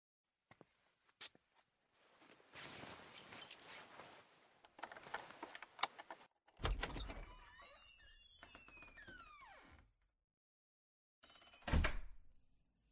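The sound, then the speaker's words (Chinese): Keys unlocking and opening the front door of a home: rustling and clattering, then a sharp knock followed by creaking squeals, a pause, and a final loud bang. “我拿钥匙开门”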